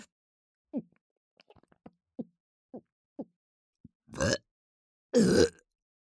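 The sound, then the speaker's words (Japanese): A person burping. Several short, soft throaty sounds come first, then two longer, louder burps near the end, with no talk. “お恥ずかしいゲップが。”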